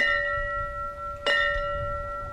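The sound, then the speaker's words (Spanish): A memorial bell tolls in honor of firefighters killed in attacks. One clear strike rings out over the lingering, steady hum of an earlier toll, and its bright partials sustain evenly afterward. “Se ha hecho sonar una campana como recuerdo especial a los bomberos fallecidos en los atentados.”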